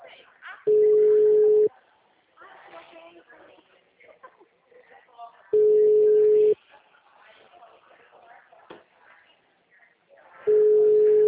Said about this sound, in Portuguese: Este número está configurado para não receber recados. Obrigado por ligar para Claro. O número está ocupado.